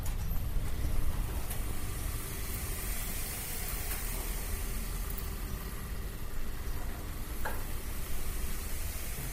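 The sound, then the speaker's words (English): Steady, dense whirring rush of spinning machinery, a mechanical structure with whirling lights in a dance-floor room, holding an even, loud hiss-like roar without pause. “That's the sound of yet more machinery, a sort of spinning mechanical structure that's full of whirling green and blue lights.”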